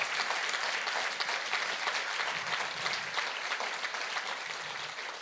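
A church audience applauding and cheering, a dense, steady wash of clapping from many hands that holds loud throughout and fades slightly at the end.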